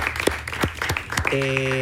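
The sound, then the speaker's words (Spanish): An audience at a dance school applauds in tribute to a late instructor, with scattered sharp claps mixed with voices, then a steady sustained tone enters near the end. “Vamos a enviarle al cielo un aplauso al profe José Gutiérrez.”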